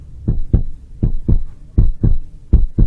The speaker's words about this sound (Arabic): في الأول كانت دقات قلبي بسرعة لكنها زادت سرعتها